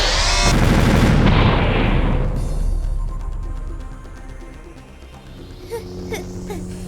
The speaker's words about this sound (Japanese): まさか人形爆弾代わりにするとは思わなかったわ。